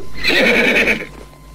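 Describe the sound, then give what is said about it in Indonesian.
A horse ridden fast neighs loudly in a single bright, quavering whinny lasting about a second before fading. “Lihatlah itu di belakangmu. Ada seseorang yang berkuda cepat menuju kita.”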